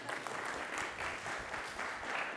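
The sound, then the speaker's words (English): Applause from a group of onlookers after a long-jump demonstration, a dense and even patter of many hands that stays at a steady level throughout. “Well done. Let's give him a round of applause.”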